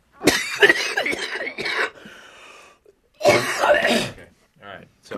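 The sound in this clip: Deep breaths through wheezing, dry-sounding lungs: harsh, rasping inhales and exhales with whistly, strained tones, coming in a few loud bursts separated by short pauses.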